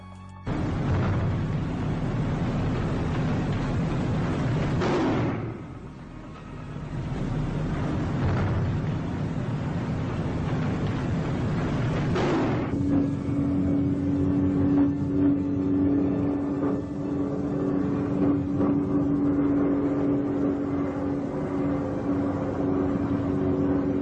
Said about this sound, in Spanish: Y comenzamos por los sonidos de los aviones, sonidos psicofónicos que bombardearon precisamente Belchite, y los picados de los Stukas junto a los motores.